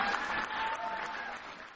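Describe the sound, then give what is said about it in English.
An evening audience applauds the artists, a soft, continuous patter of many hands clapping that holds steady and eases slightly toward the end. “So let's have a round of applause for all our great artists here tonight.”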